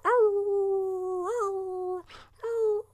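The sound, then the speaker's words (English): People imitating wolves with drawn-out howls, voices holding long steady tones with a wavering swell midway, then a breathy pause before another howl begins. “One more howl for the whole team. Let's do this.”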